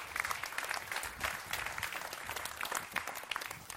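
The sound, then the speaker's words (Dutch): An audience gives a faint, steady round of applause, with dense clapping that holds evenly throughout. “Why don't you give all these guys a hand? Laten we ze een applaus geven.”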